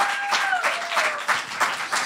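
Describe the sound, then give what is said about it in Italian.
Applause rises from a pub audience at a stand-up comedy show, with dense clapping that pulses in a few louder waves and stays at a fairly loud, even level throughout. “Ira Rubini, fate un applauso.”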